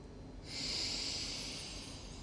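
A single long breath exhaled out, a soft airy hiss. It starts abruptly, holds steady for about a second and a half, then tapers away, heard alone.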